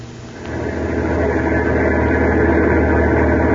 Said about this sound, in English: a heavy truck carrying 10 tons of high explosives to a government arsenal was rolling along a foggy, mountainous stretch of Highway 9W in eastern Pennsylvania.